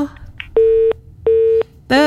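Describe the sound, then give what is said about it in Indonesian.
Busy tone after a caller to a radio phone-in was cut off: two steady, equal-length beeps separated by a short gap, with brief voice fragments before them and a voice starting right after. “Terputus, dicoba lagi untuk yang tadi sudah gabung bersama kita ya.”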